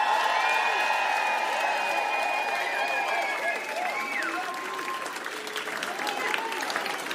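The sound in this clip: A crowd at a live comedy and music show applauds and cheers after a DJ is introduced: dense, steady clapping with high whoops and whistles riding on top, easing off slightly toward the end.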